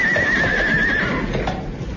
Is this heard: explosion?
no